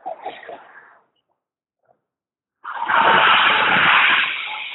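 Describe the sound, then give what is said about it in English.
Traffic on a busy highway: a brief murmur fades into near silence, then a loud rushing roar of a passing vehicle surges in suddenly and holds before easing slightly at the end. “On the busy highway, as you can probably hear, on the way to Boulder, and then I'm hoping to make it to Atlantic City tonight.”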